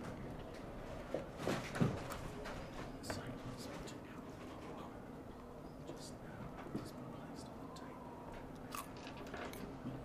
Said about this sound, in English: om nom nom. Tasty. Sorry, listeners. We've already been over this. It's good ASMR stuff.